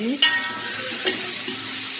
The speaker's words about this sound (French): On fait ensuite chauffer la marmite pour roussir les épices. Là, on rajoute les oignons.